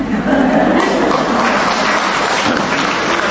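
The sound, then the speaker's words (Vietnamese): Church audience applauding a testimony from a 50-year-old churchgoer who confessed to years of past sin, the clapping dense, loud and steady throughout with no break and no talk. “Thế chứ tại sao ta vỗ tay?”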